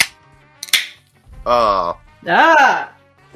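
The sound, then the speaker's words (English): A beer can cracks open with a couple of quick, sharp snaps, then two loud, drawn-out voiced exclamations follow over a quiet background. “3, 2, 1, crack.”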